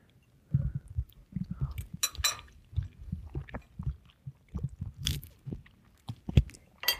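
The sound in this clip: Biting and chewing on a tofu dish: many crunchy, irregular bites and chews, loud and close, with no talking.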